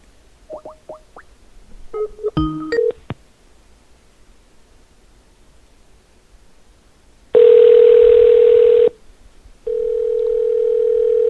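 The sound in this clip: Telephone keypad beeps for a call to an insurance line, a quick cluster of short tones, followed after a pause by two long, loud, steady ringing tones separated by a brief gap.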